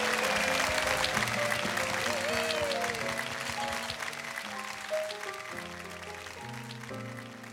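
Audience applause welcomes a singer to the stage at a live variety show: a dense, steady wash of clapping that holds an even loudness for about seven seconds and eases slightly toward the end.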